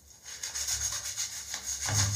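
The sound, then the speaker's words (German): Scrubbing foaming cleaner into tile grout: a steady, rough rubbing rasp with repeated back-and-forth strokes, moderately loud and without any talk. “Und dann packt ihr das eigentlich letztendlich einfach nur auf die Fugen drauf. Und dann wird geschrubbt.”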